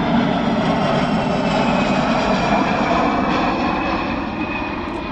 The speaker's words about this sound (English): So in the Lincolnshire area, that's another aircraft you're going to have to get used to, so you can spot it when it flies around.